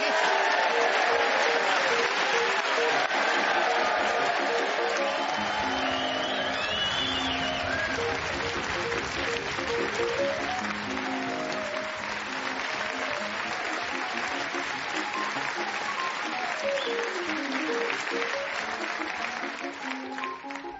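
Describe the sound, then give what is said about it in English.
Audience applause in the Bonner Hall at Dundee University: dense, sustained clapping and cheering that runs the full length beneath a melodic musical theme, easing slightly toward the end. “And we are most grateful to this lovely audience here at the Bonner Hall at Dundee University, who've cheered us on our way most magnificently.”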